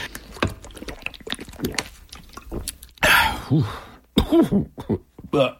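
Rough, throaty clearing bursts come after a stretch of small, wet clicking mouth sounds. The bursts are moderately loud and heard alone, without talk.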